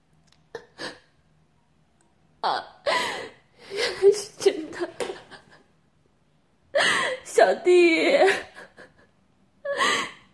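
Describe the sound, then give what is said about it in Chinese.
A person crying in bursts of sobbing, gasping breaths and whimpers, with short silences between the outbursts. “别哭了”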